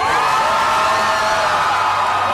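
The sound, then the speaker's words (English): Crowd cheering and whooping in Tel Aviv as people celebrate a hostage release: a dense, steady roar of many voices that holds at an even loudness throughout, with no clear breaks. “Crowds gathered in Tel Aviv to celebrate the release of more hostages.”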